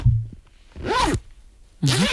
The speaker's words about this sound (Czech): Je to zip. A je to zip.